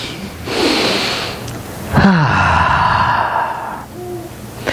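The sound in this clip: A slow, deep breath taken during a guided moment in a spiritual talk: a long airy inhale, a brief pause, then a longer sighing exhale with a faint voiced tone. It is fairly loud and heard alone, without talk.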